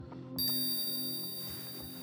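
A hypnosis bell rings with a bright, high metallic tone that holds for about a second and then slowly fades over a low, steady background hum.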